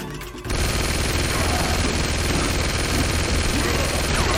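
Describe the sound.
Rifle gunfire in a radio drama battle scene: a dense, unbroken burst of shots that starts abruptly and roars on at a steady, loud level.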